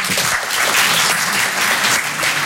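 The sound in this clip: An audience at a live comedy show applauds. Many hands make a loud, dense clatter that continues without a break and swells and dips slightly.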